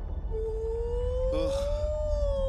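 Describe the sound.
A voice imitates an orca or whale call with a long, thin, sustained tone that slowly rises in pitch, broken briefly by a breathy burst partway through, over a low rumbling background.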